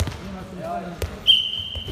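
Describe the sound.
A ball bounces on an indoor handball court as a team practises fast centre restarts, with a sharp thud near the middle, a long steady high whistle-like tone after it, and voices underneath.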